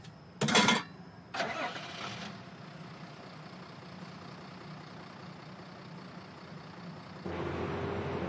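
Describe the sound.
A truck engine starting: a short loud burst, then a rougher cranking surge that settles into a steady low idling rumble, which grows noticeably louder near the end.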